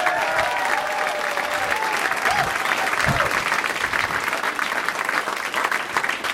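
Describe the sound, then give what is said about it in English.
Dense, steady applause from a stand-up comedy audience, a thick wash of clapping that holds at an even loudness for about six seconds, with faint tonal sounds drifting through it. “Another round of applause for Chris Hardwick, everybody.”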